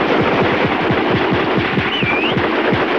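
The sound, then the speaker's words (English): A squad fires a volley of rifle gunfire from a line on a snowy ridge: many sharp shots in a rapid, nearly continuous burst, loud from start to finish. “The squad lets loose from their line on the ridge, scattering the defenseless Germans. Shots flash as shells fly from rifle breaches.”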